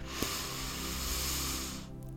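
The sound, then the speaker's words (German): A deep breath drawn in during a guided breathing exercise: one long, steady, breathy hiss lasting nearly two seconds before it stops abruptly, alone and fairly quiet. “Und dann atme mal tief ein”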